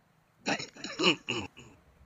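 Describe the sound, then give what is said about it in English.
A few harsh, raspy coughs and choking sputters from a man with COPD struggling to breathe in an overheated room, coming in short bursts close together before trailing off. “excuse me, folks. It's too hot in here, and I have COPD. And if it gets too hot, I can't breathe. That's why I was choking myself to death.”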